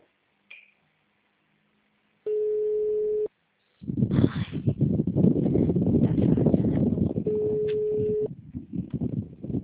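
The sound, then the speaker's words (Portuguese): Telephone busy signal on a call that goes unanswered: two steady, mid-pitched tone bursts of about a second each, separated by a stretch of loud, rough noise. “Alô? Alô? O número não responde.”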